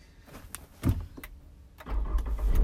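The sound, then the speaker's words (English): A car engine is restarted: a short mechanical burst, a quiet pause, then a low engine rumble swells and keeps running to the end. “I had to actually restart the car to get the feed.”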